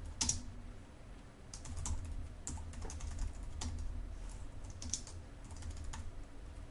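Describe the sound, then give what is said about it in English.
Keyboard typing: many quick, soft key clicks in an uneven stream with brief pauses, quiet throughout. “So let me just type that in.”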